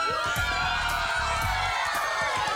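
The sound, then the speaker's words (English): A studio audience cheers and whoops, a loud continuous mix of shouting voices that does not let up. “And you have behind you the support of a tremendous studio audience. Are you not tremendous studio audience?”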